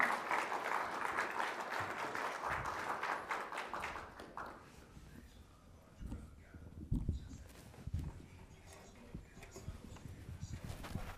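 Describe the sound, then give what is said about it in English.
A church audience applauds to welcome a speaker to the stage. Dense, steady clapping lasts about four seconds, then thins out into scattered taps and soft thuds. “So, uh, Julie's going to come up now. Let's welcome her up, give her a big hand.”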